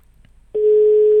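A steady telephone tone on a call line comes in abruptly halfway through and holds at a single unbroken mid pitch until the end, with nothing else over it.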